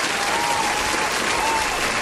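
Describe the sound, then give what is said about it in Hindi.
A crowd claps for listeners who correctly guessed saffron in a quiz. The applause is a loud, dense and even roar that holds steady throughout with no pauses. “तो जोरदार तालियां हमारे सारे listeners के लिए जिन्होंने बिल्कुल यही नाम गैस किया है।”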